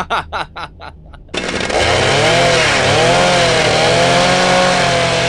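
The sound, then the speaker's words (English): A powered bone saw roars loudly and steadily after a few short sputtering bursts at the start, its high buzzing whine wavering up and down in pitch as it runs. “Boys, put the saw down.”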